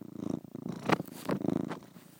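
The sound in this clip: A cat purrs in a steady, rhythmic low rumble, its pulsing breaths running continuously at a moderate level throughout.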